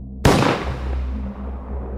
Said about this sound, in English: lets loose the shotgun, firing a bullet straight through the back of Sebastian's skull